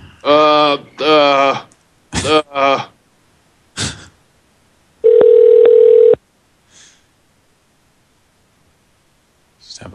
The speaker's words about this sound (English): Let's call another number.